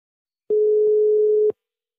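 A ringing tone on a phone line as a call is placed: one steady mid-pitched tone lasting about a second, with soft clicks at its start and end, followed by silence.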